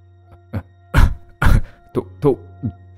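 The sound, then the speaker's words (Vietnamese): A man coughs violently after a deep drag on a cigarette: a fit of several harsh, rasping coughs in quick succession over a low steady hum, with the middle bursts loudest. “rít mạnh một hơi căng lòng phổi, thì đột nhiên ho sặc sụa”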